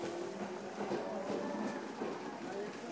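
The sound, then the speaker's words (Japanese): Steady mechanical rumble of an out-of-service train departing a station platform, with a faint tonal whine in the noise and quiet voices underneath. “3番線回送電車発車いたします。ご注意ください。3番線回送電車発車です。”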